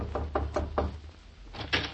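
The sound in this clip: Knocking on a door: four firm, evenly spaced raps, a short pause, then two more quick knocks.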